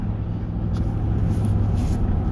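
A vehicle driving down the road, heard as a loud, continuous rumble of road noise and low engine drone that holds steady throughout, with no voices.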